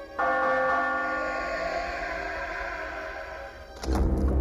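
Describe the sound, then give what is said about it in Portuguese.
A doorbell rings at a house door with a loud, steady chime that holds for several seconds. A brief burst of louder noise cuts in at the very end. “Até eu tenho coragem para tocar a campainha.”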